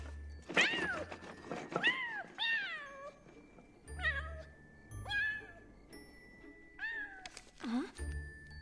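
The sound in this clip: A cat meows repeatedly inside a wooden cage that is being shaken, giving several drawn-out, wavering cries that fall in pitch, with dull low thumps from the cage between some of them.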